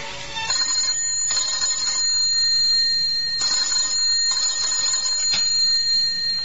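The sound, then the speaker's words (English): A telephone rings in an office, a steady high-pitched electronic trill that repeats in regular bursts, heard alone with no voices. “the telephone rang in John Davis's office.”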